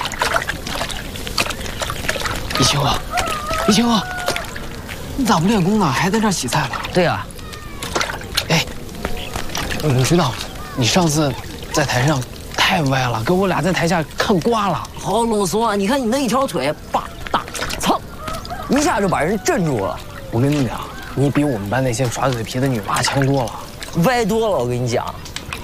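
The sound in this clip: Vegetables are washed in a big basin of water, with repeated splashing, sloshing and trickling pours running throughout beneath lively conversation between people.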